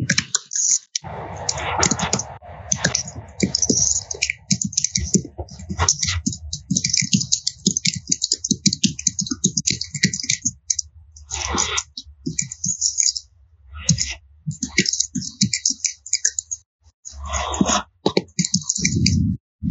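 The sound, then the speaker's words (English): Someone types a question on a computer keyboard: rapid, loud key clicks run in bursts for about twenty seconds, broken by brief pauses. “Okay, what I'm going to do is type the question into the chat since it's working on the feed.”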